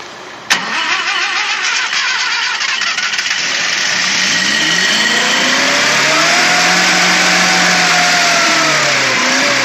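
A car engine starts with a sharp click and catch, then settles into a steady running roar that accelerates, its pitch climbing over several seconds. The engine is loud and heard alone.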